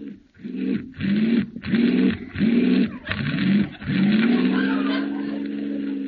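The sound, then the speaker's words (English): A balky car engine starting: several sputtering, cranking bursts in a rough rhythm, then the motor catches and settles into a steady low drone that fades slightly. “This car doesn't work very well. Start it again.”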